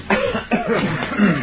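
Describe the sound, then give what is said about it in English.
Three loud coughs from people hired to cough during a wedding scene, unevenly spaced across about a second and a half, with nothing else heard between them. “we hired a dozen people to cough during that wedding scene”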